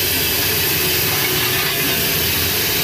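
The open firebox of a steam locomotive gives a loud, steady roar of fire with a dense rushing hiss that holds constant throughout, without pause or change.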